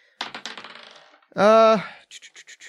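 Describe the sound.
Dice rolled across a surface during a discussion of a spiked, heavy-balled weapon: a quick rattle of clicks that thins out and fades, then a brief tonal sound, then a short run of evenly spaced clicks.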